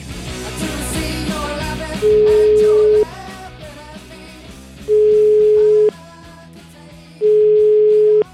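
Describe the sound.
Telephone tones sound while a call is placed: three long, loud beeps at one even pitch, each lasting about a second and separated by longer pauses, over a constant musical background.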